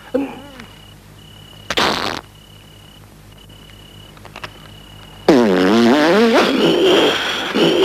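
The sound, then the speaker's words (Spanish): Farting sounds from a 1981 film dubbed in Spanish: a brief sputtering burst early on, then a long, loud, wavering blast that carries to the end. “Hay que tirarse unos pedos.”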